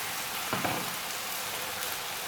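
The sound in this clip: Meat sizzles while cooking in a pan, headed for an onion and pine nut stuffing for aubergines, giving a steady, even crackling hiss throughout with little change in loudness.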